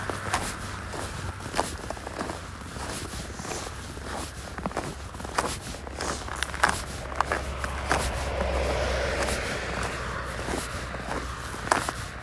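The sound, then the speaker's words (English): Footsteps walk over frozen, barren earth: many crisp, crunching steps in a steady, unhurried rhythm, with a low background rumble underneath. “standing here walking on a piece of fucking frozen barren earth”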